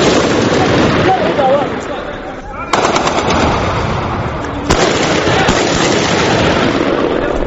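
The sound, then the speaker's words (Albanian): Heavy gunfire during street fighting between rebels and government loyalists in the Abu Slim district of a capital city: dense, loud, rapid automatic bursts crackle continuously, punctuated by a few sharper, harder cracks. “Ka pasur raporte se kryengritësit kanë shkëmbyer zjarr të rënd me luftëtarët lojal të Gaddafit në lagjen Abu Slim, një nga pak hapësirat e mbetura të Gaddafit në kryeqytet. Ka pasur edhe të shtëna artilerike.”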